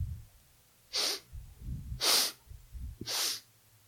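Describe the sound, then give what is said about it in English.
Three short, sharp inhales through the nose during a breathing exercise, each a breathy hiss spaced about a second apart over quiet low rumble. “You're going to inhale through your nose, slowly. At the top of the breath, you're going to inhale 3 more times.”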